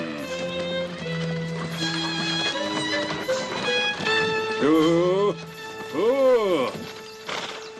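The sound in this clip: A drunken mule walks with clip-clopping hoofbeats in a dubbed comedy film, set in Robin Hood's territory. The hooves are mixed under loud, continuous music.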